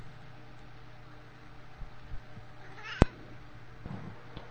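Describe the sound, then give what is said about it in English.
A cat meows during a call-in phone line, with faint, brief meows under steady hiss and one sharp click partway through. “Ooh, it's a cat.”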